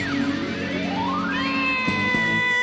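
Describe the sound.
A cat gives one long, drawn-out meow that climbs steadily in pitch and then holds high, heard alone and clear with no talk.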